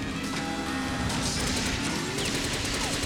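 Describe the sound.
Machine-gun fire in a video game: a dense, continuous rattle of rapid shots mixed with busy game noise, with no voices.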